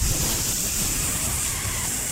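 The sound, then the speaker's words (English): Air let out of a balloon, a continuous rushing hiss that stays steady and fairly loud for about two seconds. “did you let a balloon out?”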